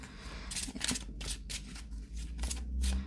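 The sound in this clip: Tarot cards being shuffled and picked during a reading give a series of quick, papery riffling bursts that repeat at a fairly even pace.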